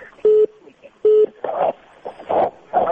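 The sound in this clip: When a telephone call is cut off, a line tone sounds as two steady, mid-pitched beeps a short gap apart, and speech follows afterward.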